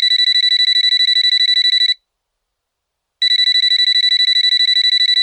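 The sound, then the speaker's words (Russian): A mobile phone rings on a table with a loud, high, rapidly pulsing electronic ringtone. It plays in two long bursts separated by a pause of about a second. “В ее мысли ворвался звонок. На столе запищал, запрыгал мобильный.”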